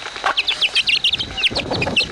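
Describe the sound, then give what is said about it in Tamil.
Chicken chicks caught in the rain peep in a rapid run of many high, thin chirps over a soft, steady hiss of rain. “மருதாணி, இந்த பக்கமா டார்ச்ச புடிமா, அங்க கோழி குஞ்சுக நனைஞ்சுகிட்டு இருக்கு. அது எல்லாத்தையும் எடுத்து இந்த பரப்பங்குடையில போட்டு வைக்கிறேன்.”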